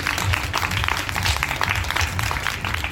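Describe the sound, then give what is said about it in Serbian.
Audience applause: a dense, even wash of many hands clapping that holds at a steady level throughout. “molim jedan aplauz za njih”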